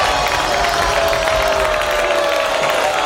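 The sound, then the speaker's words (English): A studio audience reacts with a mixed, steady wash of crowd noise and scattered clapping, loud and continuous throughout with no clear breaks. “It sounds like some of our audience isn't a fan. Oh, yeah, no. Mixed Get them out of here!”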